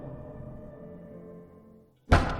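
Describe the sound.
A single sharp, loud bang from the ground floor cuts in at the end, after a stretch of faint, low droning hum that briefly drops to near silence.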